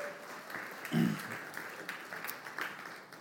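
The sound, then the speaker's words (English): Audience applause welcoming a speaker at a church service, a steady, fairly faint patter of many hands that lasts the whole few seconds. “So if you guys will, give a warm welcome to Brandon Kennedy this morning.”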